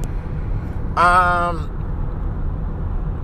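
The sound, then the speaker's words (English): Interior road noise from a car being driven, a steady low rumble that runs throughout, with a brief harmonic tone rising over it early on. “And I'm driving, and I'm trying to do something, and this motherfucker doesn't know how to drive.”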